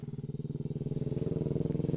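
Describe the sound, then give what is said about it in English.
An old motorbike engine passes with a loud, steady, rapid thumping putter that holds evenly from start to end. “And that's another motorbike.”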